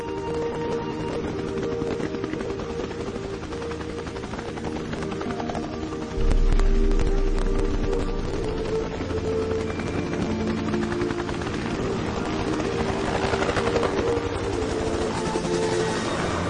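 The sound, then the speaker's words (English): Helicopter rotor blades beat out a steady, loud wop-wop drone that runs unbroken for the whole stretch, stepping up in loudness a little after six seconds and then holding level. “I don't know if there's anybody here today who doesn't thrill to the sound of those blades. That familiar wop wop wop is the soundtrack of our war”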